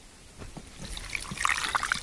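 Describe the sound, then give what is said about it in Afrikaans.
Paraffin being poured onto fire blocks in a grill before lighting, a quiet start giving way to a louder, irregular trickle and spatter of liquid through the second half. “Ons moet nou 'n bietjie parafin kry. En dan gooi ons hom.”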